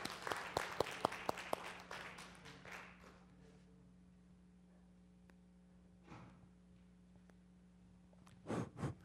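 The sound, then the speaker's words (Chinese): Audience applause at a church gathering, a burst of quick scattered claps that fades within a few seconds, leaving a quiet hum, with a couple of faint taps later. “来，给他掌声来。”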